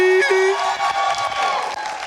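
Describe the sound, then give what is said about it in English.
An audience at a live show cheers and whoops, a loud, dense crowd roar with a sustained shouted tone at the start, carrying on steadily to the end. “Put your hands together just for that.”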